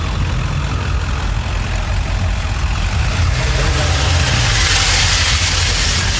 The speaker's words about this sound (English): I can't tell if that was an exhaust leak or a gearing issue. A little bit of everything. A little bit of rattle box, a little bit of rust.